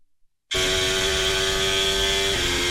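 A Ferrari Formula 1 car engine cuts in abruptly after a short quiet start with a loud, steady, high-pitched whine that holds a sustained tone and steps slightly lower near the end.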